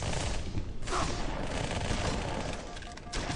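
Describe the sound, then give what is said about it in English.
Shotgun gunfire in a video game: a loud, dense wash of blasts that runs continuously without clearly separated shots, with no talking. “Oh, shotgun.”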